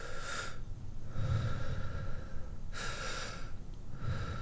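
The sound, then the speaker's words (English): Breathing exercise in which air is drawn deep into the stomach and then a second breath is taken on top of it, filling the chest. Two loud, airy rushes of breath stand out over a steady, noisy breathy background. “you breathe into your stomach, and then you take like a second breath within that breath into your heart.”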